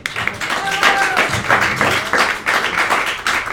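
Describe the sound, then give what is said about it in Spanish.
Audience applause at a panel event on fanzines as speakers are introduced: loud bursts of clapping from a room of people, swelling and dipping briefly a few times without stopping. “Otro aplauso, por favor.”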